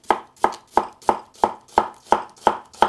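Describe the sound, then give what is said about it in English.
A knife chops an onion on a board with nine sharp, evenly spaced thuds in a steady, brisk rhythm, alone with no talking. “All right, I'm just going to start by cutting an onion here.”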